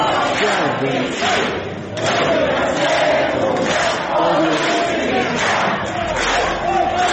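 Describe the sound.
Theatre audience at the Croatian National Theatre in Split shouting in unison against right-wing protesters trying to stop a play, a loud sustained crowd roar with rhythmic pulses recurring about once a second.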